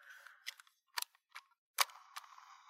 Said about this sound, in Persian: دوباره من اینو ببندم به این صورت بازش کنیم نوار کاست رو داخلش بذاریم صدایی که بسته شد